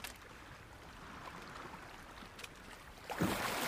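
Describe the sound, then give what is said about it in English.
Sea water with floating debris bobbing on the surface: a steady, faint wash and lap of water that continues throughout, with a slightly louder splash near the end. “Now, in the sea surrounding Neverland, assorted flotsam bobs in the water.”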